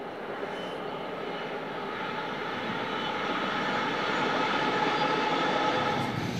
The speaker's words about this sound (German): Die 5000 PS starke Lok wird von zarter Hand gesteuert.